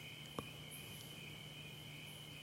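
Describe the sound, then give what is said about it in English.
Crickets chirp faintly in the background, a steady high-pitched trill that runs unbroken, with one short soft tap near the start and no voices. “like the crickets in the background, or that faint sound of helicopters off there,”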